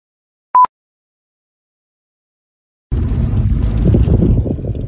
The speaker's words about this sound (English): I'm driving now